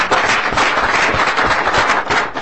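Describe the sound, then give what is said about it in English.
Applause from an audience welcoming visiting high school students in a legislative chamber: dense, continuous clapping that stays at a fairly even level throughout, with no talking over it. “Members, please give them a warm round of applause.”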